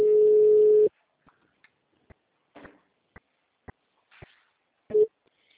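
A telephone tone after a dropped call: a steady, mid-pitched tone lasting about a second, then a run of faint scattered clicks and a short final beep.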